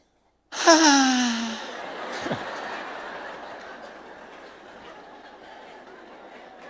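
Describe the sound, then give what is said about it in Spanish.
A voice imitates a person who groans while breathing: one voiced moan that slides down in pitch, then a long breathy exhale that slowly fades. “¿Nunca vieron gente que se queja cuando respira? ¿Vieron que hay gente que hace?”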